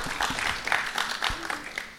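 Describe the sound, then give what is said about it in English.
Brief, scattered applause from a small audience, uneven claps rising and falling at low volume rather than building into a full ovation. “Okay, some applause.”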